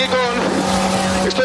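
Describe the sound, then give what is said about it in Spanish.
Inside a bus, a steady engine drone with a low, even hum fills the space throughout. People talk over the constant mechanical noise. “Estoy intentando meterme dentro, ya estoy dentro del autobús”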